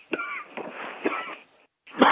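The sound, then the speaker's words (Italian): A few rough, rasping coughs come in short bursts separated by brief gaps, followed by a moment of silence and then a louder, harsher final burst. “Ma voi ci credete che io non tossisco tutto il giorno e quando devo fare i programmi”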